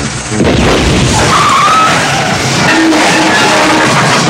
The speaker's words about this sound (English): An explosion under the cab pulverizes it. Smoking, it spins out of control.